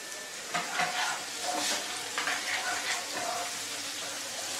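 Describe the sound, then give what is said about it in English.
Ingredients sizzling and frying in hot oil, a continuous bright hiss with clinking and scraping from stirring layered on top. “You put everything in the oil.”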